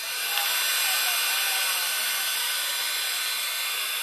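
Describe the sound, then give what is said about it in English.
A small snow machine running at a holiday event in Florida gives off a steady, airy whir and hiss, constant in level throughout, with no talk. “We got a little snow machine over there.”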